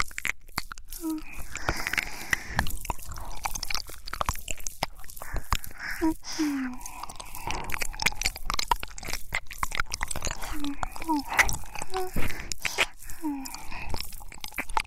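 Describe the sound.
Wet ear-licking mouth sounds, many moist smacks, slurps and soft clicks in an irregular rhythm, with a few faint breathy murmurs between them.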